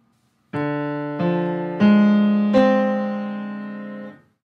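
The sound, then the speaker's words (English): A half-diminished chord, D minor 7 flat 5, is built from four clear struck tones in succession. The tones ring together into the full chord, then fade out together. “So that's the sound of a half diminished chord.”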